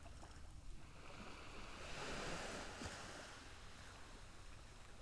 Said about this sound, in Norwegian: Du lägger märke till lyden som är runt dig. Du kan höra bölgan som slår in mot stranden.